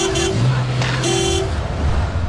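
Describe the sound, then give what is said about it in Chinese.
A sedan's horn honks from below a building at night: a few sustained horn tones at differing pitches, loud over a steady rumble of traffic. “楼下传来了轿车的鸣笛声”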